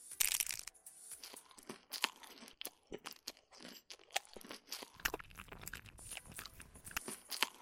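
Someone eats crunchy food, chewing with many sharp, irregular crunches and crackles interspersed with brief pauses, fairly faint throughout.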